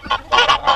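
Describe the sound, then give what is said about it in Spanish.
Turkey calling in a few short, harsh, nasal honking bursts in quick succession, loud and heard alone. “En realidad, el nombre de turkey lo reciben debido al curioso sonido que hacen con la garganta.”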